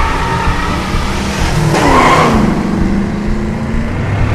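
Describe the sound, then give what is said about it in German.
A car drives off on its own, steering wheel fixed and accelerator held down. The engine roars loudly and steadily, and a brief tire squeal swells in the middle. “Das Lenkrad ist fixiert, das Pedal gedrückt. Jetzt Gang rein.”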